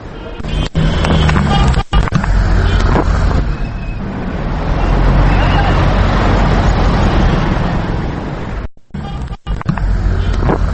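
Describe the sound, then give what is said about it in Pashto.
Engines of buses and small cars fill a busy bus station in Kabul's old city, serving routes to Logar. A loud, constant traffic rumble and roar carries a few sharp knocks and brief dropouts. “دلته د بسونو او وړو موټرونو د ماشینونو غږونه اورېدل کېږي.”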